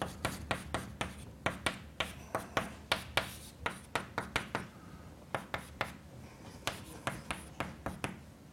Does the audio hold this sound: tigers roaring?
no

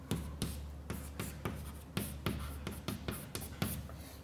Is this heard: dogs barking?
no

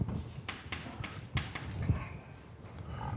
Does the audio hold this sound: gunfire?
no

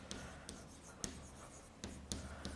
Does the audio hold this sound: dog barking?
no

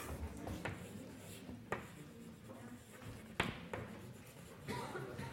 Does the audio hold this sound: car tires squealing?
no

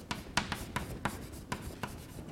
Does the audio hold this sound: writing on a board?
yes

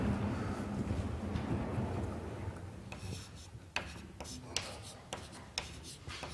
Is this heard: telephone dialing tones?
no

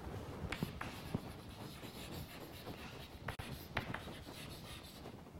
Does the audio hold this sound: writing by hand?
yes

